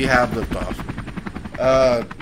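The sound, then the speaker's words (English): A man imitates a helicopter with his voice, making a fast, rhythmic chopping patter framed by droning vocal whirs at the start and end. “There's actually audio of him doing the penis helicopter. Here it is.”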